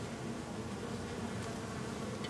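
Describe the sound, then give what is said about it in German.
Honeybees buzzing around hives at a bee institute in Celle in September, when only a few bees remain. The buzz is a steady, dense, even drone that stays constant throughout, with no voices. “Im September sind hier nur noch einzelne Bienen zu sehen, denn die Imker haben ihre Kästen eingeholt.”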